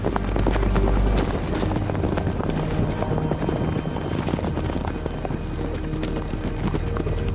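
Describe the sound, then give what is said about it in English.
A herd of deer sprints past, their hooves making a fast, dense clatter of many hoofbeats over a steady rumbling background, loud throughout. “A herd of deer sprints by just ahead of them.”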